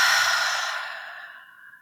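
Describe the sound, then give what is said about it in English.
A deep breath released as one long, breathy exhale during a guided relaxation breathing exercise, loud at first and then fading steadily over about two seconds, with no voices. “inhaling through your nose, letting it go through your mouth.”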